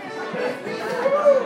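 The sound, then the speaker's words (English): Crowd chatter fills Erin's Pub in downtown St. John's during the Slow Session, a Tuesday-night music session, with many overlapping voices talking indistinctly at a steady, moderate level. “What you're hearing are sounds from The Slow Session, an event held at Erin's Pub in downtown St. John's on Tuesday nights.”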